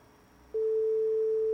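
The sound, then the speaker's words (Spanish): Telephone tone on an outgoing call: a single steady electronic tone starts partway through and holds at an even, loud level to the end, with no talk. “Vamos a ver por acá. Por ahí estamos llamando.”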